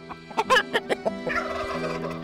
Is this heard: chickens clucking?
yes